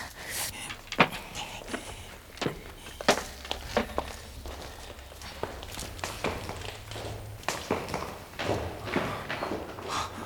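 Footsteps climbing a staircase that leads further upward: a series of irregular taps and thuds, a few louder than the rest, spaced unevenly over a soft, steady background.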